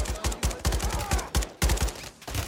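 Rapid automatic gunfire from a weapon in the video game Call of Duty: Modern Warfare 3, with loud bursts of many shots broken by brief pauses.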